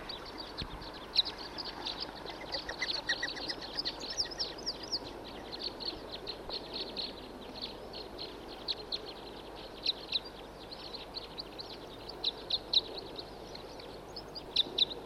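Male birds call and sing as a large flock arrives, many short, high chirps and tweets over a steady outdoor hiss, with a few louder calls standing out near the end.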